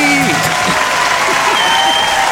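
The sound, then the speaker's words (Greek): Applause on a Greek radio show, a loud, dense and unbroken roar of clapping with a voice faintly underneath, cutting off abruptly at the end. “Ναι, ναι, ρε, ρίξε ένα χειροκρότημα, κάτι να συνέλθουμε.”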